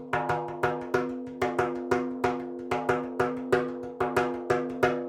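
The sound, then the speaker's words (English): A hand drum plays a West African afouché rhythm: a steady pattern of many sharp, ringing strokes with a resonant low tone, grouped in repeating accented phrases at a moderate tempo, with no voices. “This I learned is called an afouché. It's a West African rhythm.”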